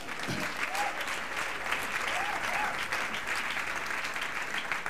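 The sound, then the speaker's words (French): Church audience applauding and acclaiming God during a French-language service: thick, continuous clapping with a few brief voices calling out above it. “Est-ce que nous pouvons nous lever pour faire bien ce que nous avons commencé à faire là, acclamer Dieu? Alléluia.”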